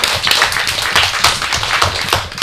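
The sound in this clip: Audience applause for a young singer's performance, a lively stream of hand claps with uneven, slightly rhythmic accents that stays fairly loud.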